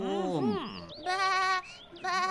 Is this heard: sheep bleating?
yes

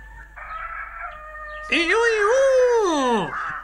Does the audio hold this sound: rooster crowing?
yes

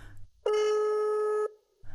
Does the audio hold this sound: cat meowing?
no

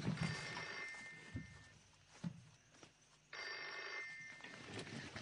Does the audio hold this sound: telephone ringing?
yes

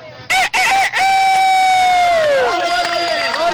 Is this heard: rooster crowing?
yes

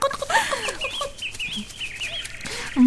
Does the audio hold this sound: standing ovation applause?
no

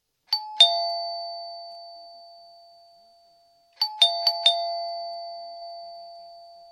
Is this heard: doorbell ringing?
yes

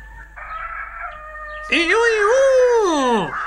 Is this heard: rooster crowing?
yes

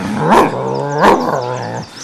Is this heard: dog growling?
yes

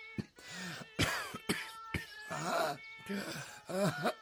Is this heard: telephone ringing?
no

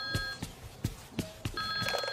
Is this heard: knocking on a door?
no

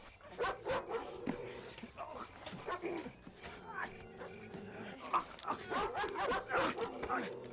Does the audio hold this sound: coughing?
no

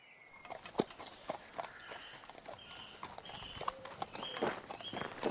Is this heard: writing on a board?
no

